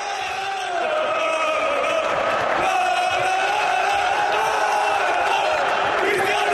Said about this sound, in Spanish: Estos son los jugadores cantando Cristiano quédate, y se une todo el público.